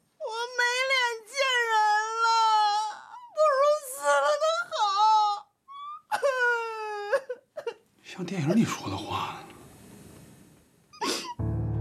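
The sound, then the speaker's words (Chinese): A person crying and wailing in long, quavering, high-pitched voiced sobs. Several drawn-out bursts come with short breaks between them, followed by rougher, noisier sobbing toward the end. “你怎么还哭上了？你别哭啊！”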